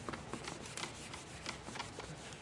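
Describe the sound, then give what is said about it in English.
Writing being erased from a board during a Bible lesson, faint repeated rubbing strokes in a steady, scratchy rhythm with no talk. “You got all that? Did you write all that down? Because I erased it. So if you missed it, it's gone now.”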